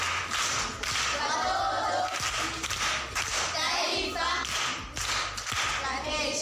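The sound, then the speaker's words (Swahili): Audience clapping at a lively gathering, arriving in uneven bursts of sharp hand claps that swell and drop several times, with voices, including a child's, mixed in. “Makofi kwa shangazi.”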